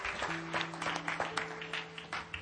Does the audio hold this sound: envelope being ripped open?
no